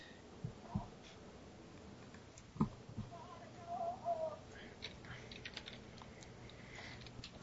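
Keys tap on a keyboard in faint, scattered clicks, a few louder strokes standing out from quiet background hiss.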